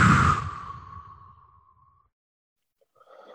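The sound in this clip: A deep breath blown out: one long, breathy exhale that starts loud and fades away over about two seconds, followed by near silence and a faint rustle at the end.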